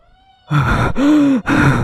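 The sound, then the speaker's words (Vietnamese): Heavy, ragged panting from a man who has just run flat out down a mountain: three loud, breathy gasps in quick succession, each carrying a strained, groaning voiced tone. “chạy trối chết cho đến khi anh đột ngột dừng lại hổn hển.”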